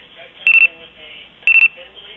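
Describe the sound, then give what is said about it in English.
A clock beeps in two short bursts about a second apart, each made of four rapid, high-pitched electronic beeps over a quiet background. “Are you beeping? No, I'm sorry. That's my clock.”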